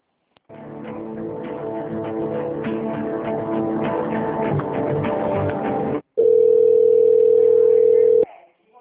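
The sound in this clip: Telephone hold tones play while a call is transferred to another department. A long stretch of buzzy, harmonic tone breaks off briefly, then a loud, steady single-pitched tone holds for about two seconds and stops.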